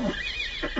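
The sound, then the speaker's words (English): Horses neigh in one brief, loud whinny with a shrill, wavering tone that dips and then lifts again at the end. “Oh, those stupid horses! I suppose that noise was ordained by heaven to assist my examination of the patient.”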